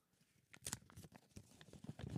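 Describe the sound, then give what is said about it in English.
An envelope holding a card is torn open by hand. Faint paper rips and crinkles come in irregular bursts, with a few sharper tears standing out from the soft rustling. “So Jack, well, here I am. I'm going in. I'm opening it up.”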